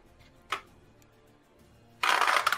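Dice clattering across a table during a tabletop roleplaying game: one brief click early on, then a longer, louder rattling burst near the end.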